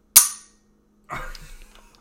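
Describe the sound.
A gun's trigger is pulled, giving a sharp, loud crack that decays quickly. About a second later comes a softer, rattling mechanical burst.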